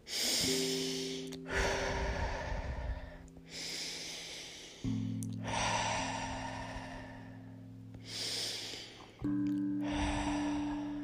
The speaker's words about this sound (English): take a few what I call cleansing breaths. Just breathe in and let it go.